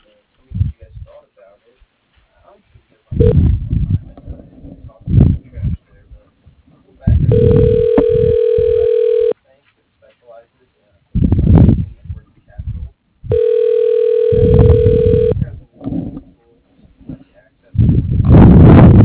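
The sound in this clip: Phone line tones sound while a call goes through to an office voicemail system: two long, steady, mid-pitched ringback tones, each about two seconds, with voices speaking between them.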